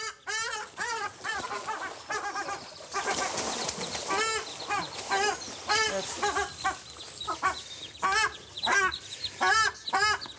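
Excited ruddy shelducks, including a drake, guarding their chicks: many harsh, repeated honking calls overlap in a loud, almost continuous chorus, broken by bursts of wing flapping.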